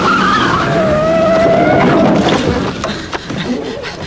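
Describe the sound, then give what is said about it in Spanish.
A car drops off a half-metre curb at about 70 km/h without braking, with a loud tire squeal over engine roar, followed by a few sharp knocks and rattles as the sound settles. “Acaba de bajar una acera de medio metro sin ni siquiera frenar. Iba a unos 70 kilómetros por hora.”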